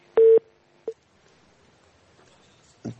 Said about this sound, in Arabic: نعتذر إن التليفون قطع